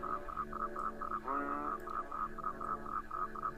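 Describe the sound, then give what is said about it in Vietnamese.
Frogs croaking from a stagnant pond in the morning, a steady run of many rapid, evenly spaced mid-pitched croaks, faint against a low murmuring background. “Thế rồi đám ếch nhái ở cái ao tù cũng đua nhau gào lên.”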